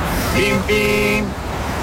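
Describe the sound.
A car horn beeps twice in short, steady, harmonic honks, the second longer than the first, over a constant background of noise.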